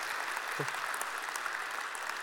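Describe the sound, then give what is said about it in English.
Applause from a church audience welcoming the Wyoming campus, a steady, dense wash of clapping that holds at a fairly soft, even level throughout. “Would you give them a warm welcome just by way of applause?”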